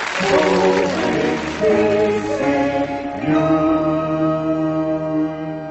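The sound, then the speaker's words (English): A news jingle plays, made of layered, sustained harmonic tones that stay loud and steady, with a brief shift in the middle and no one talking. “So, shall we have a look at the news? Let's have a look at some news. Cue the jingle.”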